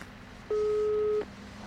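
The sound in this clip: A single steady telephone ringback tone sounds once, under a second long, as an outgoing call is placed, over a faint low background hum.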